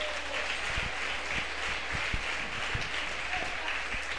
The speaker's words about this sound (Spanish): Démosle un aplauso al Rey.